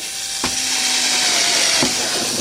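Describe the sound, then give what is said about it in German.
Steady, loud whirring grind of a cordless battery drill boring drainage holes, continuous throughout, with a couple of brief sharp transients cutting through the constant drone. “Das ist natürlich gäbig mit Akku. Da muss man kein Kabel haben. Und jetzt können wir die Löcher reinbohren.”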